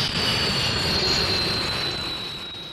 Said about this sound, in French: Vous entendez les tuyères du Super Mister 4B1.